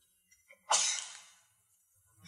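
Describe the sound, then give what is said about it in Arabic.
One loud sneeze, preceded by a couple of small catches of breath, with a breathy hiss that trails off over about half a second. “يرحمك الله”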